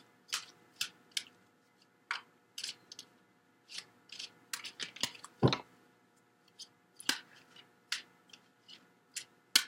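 Crisp handling sounds as tarot cards are drawn and laid out from a deck: many short, dry snaps, flicks and rustles in an uneven rhythm, fairly faint and without talk.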